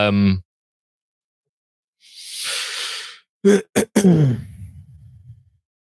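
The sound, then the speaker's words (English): A man clears his throat with a couple of sharp, rasping bursts that roll into a low, rumbling grunt and then fade. A brief voice and an airy exhale come before it. “He clears his throat ominously.”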